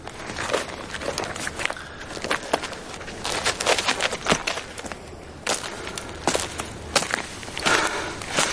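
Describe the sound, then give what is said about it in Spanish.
A man walks on the ground with a saddlebag slung over his shoulder, his footsteps making many crisp, crunchy steps in a steady rhythm at a moderate level. “Luego la coloca sobre su hombro y camina hacia el español.”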